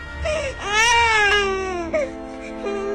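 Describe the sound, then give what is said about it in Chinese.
An infant wails in a forest, a sustained high, harmonic cry that swells in loudness and holds steady, with a brief hitch near the end before the crying carries on alone. “随着黑影越来越近，那婴儿的啼哭声也越来越大，越来越清晰。”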